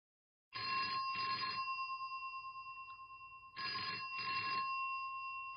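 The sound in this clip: A telephone rings in two double-burst rings, a bright, steady electronic bell tone with a fading tail after each pair, alone before an Italian phone dialogue in a listening exam.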